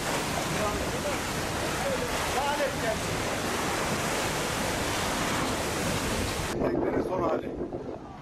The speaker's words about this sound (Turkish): Antalya'da tekneler battı. Dalgalar sahili aştı.